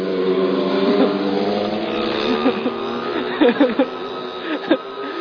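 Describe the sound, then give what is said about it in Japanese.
Three loud motorcycles pass by with a continuous rough engine drone that shifts in pitch. A few sharper revving bursts stand out toward the end. “たった3台なんですが、ちょっとうるさいバイクのやんちゃ坊主たちが今通り過ぎていきましたが”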